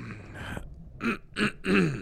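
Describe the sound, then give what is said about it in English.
A man clears his throat with a few short, rasping, breathy bursts in quick succession, heard alone without speech. “let me clear your throat”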